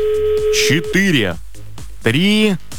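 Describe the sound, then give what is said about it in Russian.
A telephone ringback tone sounds while someone calls a listener: one steady beep, then a voice talks over the line. “Гудки продолжаются, но время уже закончилось.”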